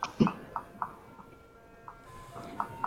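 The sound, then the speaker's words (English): Chime from an ice cream van driving by, a faint tune of short, evenly spaced ringing tones at a steady pitch, with a brief pause in the middle. “Oh, the ice cream man's driving by.”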